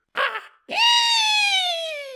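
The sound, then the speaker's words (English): A voice imitates a loud, scary shriek from the sky: a short breathy burst, a pause, then a long sustained high wail that slowly sinks in pitch as it holds. “the loudest shriek she's ever heard. I know that wasn't the loudest shriek.”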